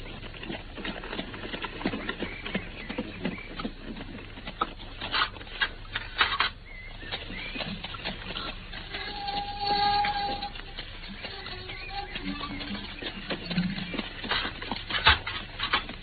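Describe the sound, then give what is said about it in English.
Horse hooves clop as a horse-drawn carriage approaches along a driveway, many irregular, fairly even hits with no voices in this stretch. “I can see the carriage in the driveway now.”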